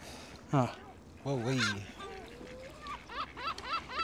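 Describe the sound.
Geese honking while being fed bread, sharp nasal calls in bursts: a single honk, a longer run of honks, then many quick honks in a rapid series toward the end.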